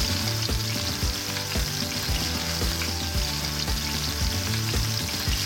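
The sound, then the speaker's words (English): Chicken frying in olive oil gives a steady, loud sizzle, a dense crackling hiss with scattered pops that runs unbroken from start to finish. “We're gonna do a couple good glugs of olive oil here. Wow. Oh, I like that. It's not splashing. Oh, it's gonna like pop.”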